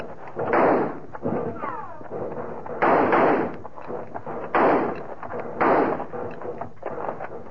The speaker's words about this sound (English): They quit firing. I guess they must be reloading.